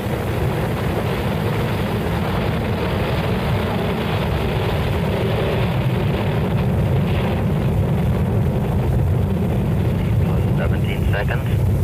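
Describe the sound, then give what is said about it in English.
Rocket engines igniting at liftoff, a dense, continuous rumbling roar that fills the whole span with unbroken, steady power. “2, 1, 0. We have ignition. We have a liftoff.”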